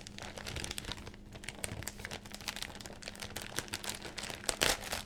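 Wrapping paper crinkles and rips as a Christmas present is opened: a dense, continuous run of loud crackles and tears throughout, with a sharper burst of ripping near the end.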